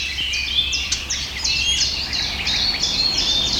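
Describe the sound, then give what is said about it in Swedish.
Blackcap warbler contact calls, short smacking notes from birds foraging in a tree, repeat many times in quick high-pitched succession over a faint steady background. “Det som smackar där, det är svarthättans lockläten. De är ute och söker föda och rör sig i trädet också.”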